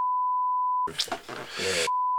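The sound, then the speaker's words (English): A steady high electronic beep tone sounds alone, breaks off while a person's voice briefly cuts in, then the same even tone resumes to the end. “It sound like a what? Beep. It sound like a beep.”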